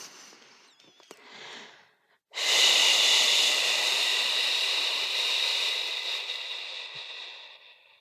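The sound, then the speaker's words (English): A soft inhale is followed by a long exhale shaped into a shushing hiss. The hiss starts abruptly and loud, then slowly tapers off over several seconds. “I find that if I extend my exhale after an inhale and I make a little shushing sound at the exhale, so like this.”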